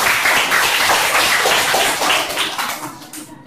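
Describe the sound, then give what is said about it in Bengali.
A class of students claps to praise a classmate's correct answer in a lesson, producing a brisk, dense patter of many hands that stays fairly loud before thinning out near the end. “Very good, হাততালি হয়ে যায়।”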